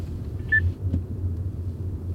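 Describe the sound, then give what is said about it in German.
A car driving on a road in Leipzig gives a steady low rumble of engine and tyres throughout, with one brief, faint high beep near the start. “Wir fahren jetzt zum Seaside Hotel.”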